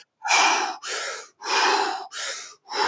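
Rapid, forceful breaths in a breathwork exercise that expels carbon dioxide: five loud, airy whooshes in a quick steady rhythm, each separated by a short silent gap, with no talking.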